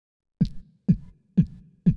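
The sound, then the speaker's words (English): Beatboxed bass drum made with the mouth: four short, punchy low thumps, evenly spaced, each cut off quickly with a little air behind it. “Then all you have to do is make it really short and push the air forward and it will sound like this.”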